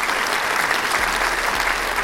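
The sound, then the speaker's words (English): Audience applause, a thick wash of many hands clapping at once, fairly loud and steady from start to finish, with no break or swell and no clear voices on top. “Appreciate you guys again, man. Round of applause, man.”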